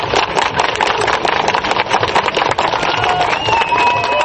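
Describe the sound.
Protesters clap their hands during a silent march in Minsk against Alexander Lukashenko's government and the economic crisis, a loud, dense, unbroken patter of crowd clapping, with a few whistle-like tones near the end.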